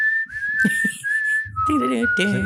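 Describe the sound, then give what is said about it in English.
A wordless jingle tune is whistled clearly, with a few held, melodic notes separated by short pauses. A low accompaniment joins under the second half. “Was it Lost Valley that had that like whistling? It wasn't really, there weren't any words to it, but it like the whistling tune.”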